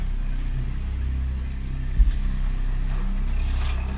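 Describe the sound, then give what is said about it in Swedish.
A car drives on with a steady, low engine rumble. A single brief thump breaks the even drone midway, and no one speaks. “Bilen åker vidare.”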